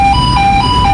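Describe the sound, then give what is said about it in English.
An electronic tone from a giant X-ray scanner as a delivery truck passes through, loud and warbling as it alternates between two close pitches over a constant low hum. “That sound is a delivery truck going through a giant X-ray scanner,”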